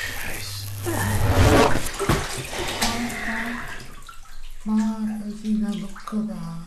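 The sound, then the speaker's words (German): Water splashing and sloshing as a radio is pulled out of it, a loud churning burst early on followed by softer, uneven swirls and drips. “Hol einfach nur das Radio aus dem Wasser.”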